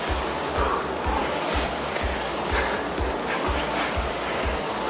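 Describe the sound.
An airy, rushing whoosh from a rowing machine during full rowing strokes, running continuously at a loud, even level with a regular low pulse underneath.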